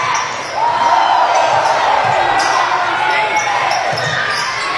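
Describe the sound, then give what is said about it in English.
Basketball dribbled during a game as a player runs out the clock. A few dull bounces are heard beneath continuous crowd noise. “just trying to dribble it out, letting the clock run”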